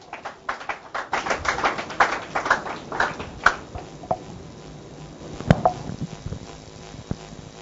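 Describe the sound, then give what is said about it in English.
Audience applause for a speaker at a church gathering: a lively burst of clapping that thins into scattered, fading claps. “Can we put hands together for her?”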